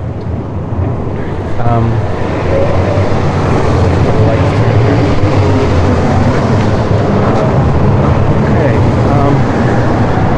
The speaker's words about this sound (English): It's kind of hard to be serious when there's all this traffic here.